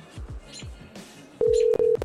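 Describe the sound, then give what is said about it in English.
Telephone dialing tones: a steady, loud electronic tone sounds after a stretch of quieter low rumbling and clatter, broken by a couple of very short gaps near its end. “Oh, it was dialing.”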